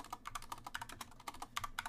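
Rapid typing on a computer keyboard while entering a search, many quick key clicks in an uneven, continuous rhythm, faint and with no voices.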